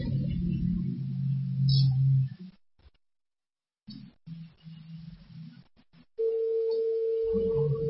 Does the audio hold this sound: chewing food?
no